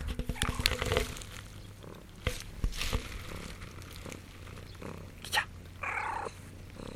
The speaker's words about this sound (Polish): O, słychać mojego kota w tle. Tak, kot, mam rozmówcę.